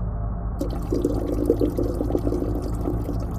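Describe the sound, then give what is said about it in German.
Urine streaming into a bottle inside a car: a steady trickling pour that starts after a moment and runs continuously over a constant low vehicle drone. “Komm hier, mach in die Flasche.”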